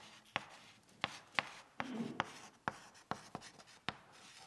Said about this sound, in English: I'm going to write those down.